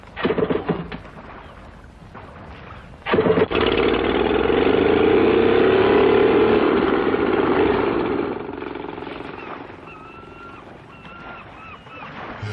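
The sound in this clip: A car driving off on an island: the engine revs abruptly and holds a loud, steady drone for several seconds, then eases back to a quieter hum. Rougher, uneven noise comes before the rev.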